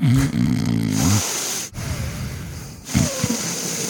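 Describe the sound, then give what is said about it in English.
Loud nasal breathing through a deviated septum: rough, congested snorts with a low, snoring rattle, alternating with noisy airy rushes of breath over a few seconds. “everyone complained that all we heard was my big nose. Was this.”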